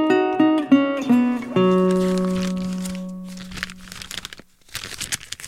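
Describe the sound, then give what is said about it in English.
Pages of a paper catalog are handled, crinkling and rustling in uneven bursts, after a short run of stepped musical notes and a held tone that fades. “Oh, that's the sound of the AeroStitch catalog.”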